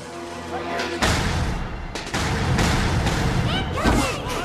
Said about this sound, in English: The aliens flee the exploding firecrackers.